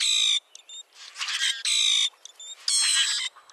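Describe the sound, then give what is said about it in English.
A common grackle gives its metallic, almost mechanical song: three harsh, buzzy high bursts alternate with scratchier, rasping notes and short gaps between them. No voices are heard. “Some birds sound almost mechanical, like the metallic song of the common grackle,”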